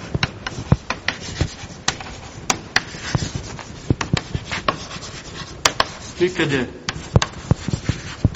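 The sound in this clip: Writing on a board during a lecture on positive-displacement pumps and hydraulic motors: many short, scratchy strokes and sharp taps in an irregular rhythm.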